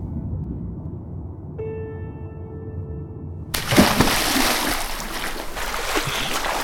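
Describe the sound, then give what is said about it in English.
A sudden loud splash as someone jumps into a flooded mine shaft, breaking in over a low rumbling background and a steady tone, then continuing as dense churning water. “Dave Tanner had jumped into the shaft and was dragging me back to the surface.”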